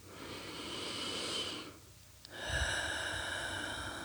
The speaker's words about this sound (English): Let's take a couple of deep breaths. In through the nose and out through the mouth.